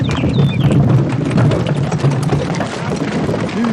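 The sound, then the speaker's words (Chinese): A horse-drawn carriage arrives, its hooves clip-clopping as many irregular clops over a noisy background. “师傅，师傅，又来辆马车。”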